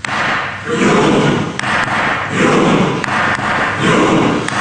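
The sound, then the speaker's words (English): Norwegian football fans, here members of parliament in the Storting chamber in Oslo, thump rhythmically while pretending to row. A few evenly spaced heavy thuds are set among swelling waves of crowd noise. “The sound of Norwegian fans, in this case members of Norway's parliament in Oslo's Stortinget, pretending to row.”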